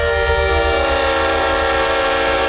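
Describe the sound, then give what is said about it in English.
A Horn Blasters Leslie train horn honks in one long, loud blast: a dense, brassy chord of many stacked tones held steady for the full length, with no break or change in level. “And it led us to this horn, the Leslie horn,”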